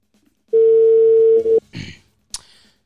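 A telephone dial tone sounds while a call is being placed: one steady, single-pitch tone lasts about a second, followed by a brief noisy burst and then a sharp click.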